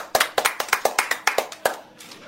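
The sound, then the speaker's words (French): Schoolchildren clap for a classmate during a classroom Bible lesson: many distinct, sharp claps in a loose, uneven rhythm, a small group rather than a big crowd, and the claps trail off near the end. “Applaudissez pour elle.”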